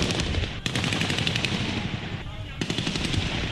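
Rapid automatic gunfire during the September coup in Ouagadougou: a dense, continuous stream of loud shots that briefly thins near the end and then resumes.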